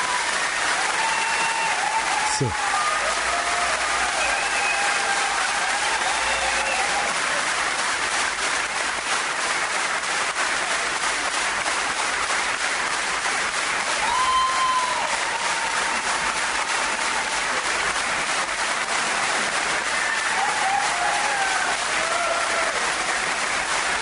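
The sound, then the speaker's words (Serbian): An audience giving a standing ovation: dense, unbroken applause that hisses steadily like heavy rain and holds at the same loud level throughout. “Što bi na čistom srpskom rekli standing ovation.”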